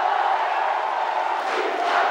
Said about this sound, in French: Vous entendez Morpho. La foule l'acclamait. Morpho. Dans la salle de l'hôtel de ville.